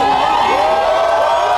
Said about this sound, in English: And then when he takes a knee and all of his troops take a knee, then they begin to cheer.